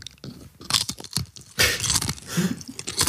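Crunchy food being bitten into and chewed during a taste test: loud, sharp, brittle crunches in many rapid bursts, with a short pause before a second run of crackling bites. No talking.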